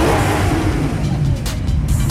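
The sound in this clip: Steady low rumble of car engines running close by among luxury cars, including an Aston Martin convertible and a Maserati. It is a continuous, even drone without distinct revs.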